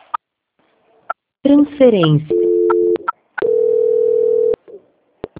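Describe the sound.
Telephone tones sound during a call transfer. A brief spoken word comes first, then two steady, mid-pitched beeps, the second longer, separated by a short gap.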